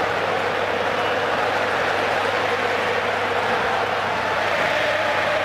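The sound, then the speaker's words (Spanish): The Argentine crowd cheers during a football match against Jordan. The loud, continuous mass of noise stays steady from start to end with no breaks. “Está enloquecido el público argentino.”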